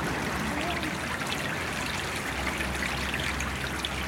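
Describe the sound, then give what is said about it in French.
Trickling water of a small stream in a free-trade zone area, a steady, even wash of noise with no distinct drops, splashes or pauses throughout. “qu'est-ce que c'est que ce bruit d'eau sur la zone franche? Ce bruit d'eau évoque aussi pour moi le ruisseau, un ruisseau”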